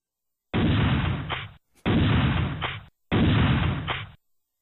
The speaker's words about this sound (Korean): 덤블에서 총성이 세 번 울립니다.